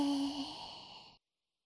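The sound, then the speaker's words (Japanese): One long, deep exhale like a soft sigh during a guided relaxation breathing exercise. The breath is steady and airy, tapers slightly, then cuts off abruptly. “吸って。 吐いて。”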